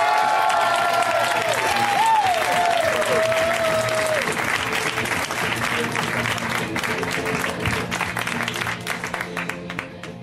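Audience applause for a comedian being brought on stage at a stand-up comedy show: dense, loud clapping from a crowd that holds strong for most of its length before easing off toward the end.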